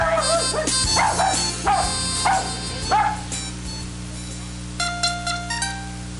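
A small dog barking in several sharp, high yips, the first few close together. After a quieter gap, a few more thin, higher yelps come at the end.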